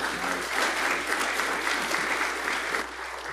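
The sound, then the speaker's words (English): A church audience applauds a visiting preacher with steady, dense clapping that stays fairly even for about three seconds and then begins to thin out. “Let's give him a good hand.”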